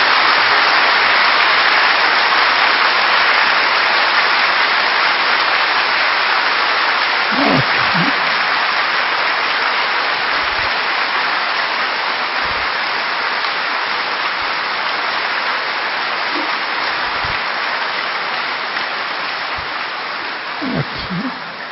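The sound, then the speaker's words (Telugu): An audience claps after being asked to applaud a student's good results. The clapping is a long, dense, rain-like patter with a few heavier thumps, holding steady and then tapering slightly at the close. “అందరికి అందరు చప్పట్లు కొట్టండి.”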